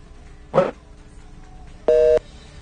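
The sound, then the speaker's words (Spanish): A short electronic telephone tone sounds when a phone call drops: one brief, steady buzzy beep, preceded about a second earlier by a short burst of noise on the line. “Se cortó la llamada. En un momento más la retomamos.”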